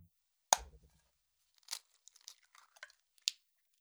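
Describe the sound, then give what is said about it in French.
A paper towel crinkles and rustles while a freshly dyed egg is dried. One sharp papery crunch comes first, then a few brief, soft crinkles follow at irregular moments. The sound is quiet, with no voices. “Huitièmement, on sèche l'œuf avec un essuie-tout.”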